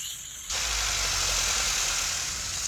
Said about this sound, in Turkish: Sesi çok daha iyi. İşte Lancia V4'ün sesi budur.